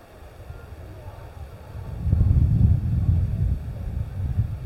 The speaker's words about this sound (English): It's windy. Can you feel it?